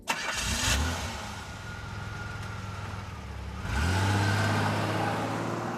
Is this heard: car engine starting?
yes